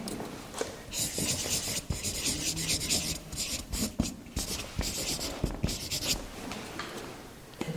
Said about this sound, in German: Bewusstsein schreibe ich in zwei Worten,